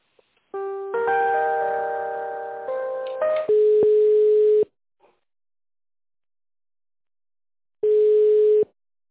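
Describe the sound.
Telephone line tones while a call is being connected: a brief stepped electronic melody, then a steady mid-pitched beep, a pause, and a second identical beep, all clear and alone.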